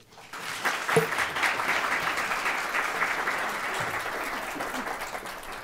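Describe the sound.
Audience applause welcomes panelists at a City Club of Cleveland panel event. The clapping rises quickly and settles into a steady, dense wash that thins only slightly toward the end.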